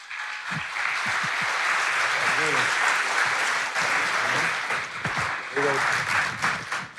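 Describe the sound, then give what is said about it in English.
Loud, rowdy applause from a church audience welcoming a pastor on stage. Dense clapping holds steady throughout, with a few whoops and cheering voices rising above it. “So, would you give a rowdy and warm City Tribe welcome to my dear friend, Pastor Jubal Garcia?”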